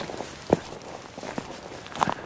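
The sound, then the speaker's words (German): Footsteps walking on a small trail and pushing through branches, with a few distinct crunching steps over a steady rustling background, no voices. “So, hier gibt es kleine Trampelpfade. Gehe ich mal durchs Äste durch.”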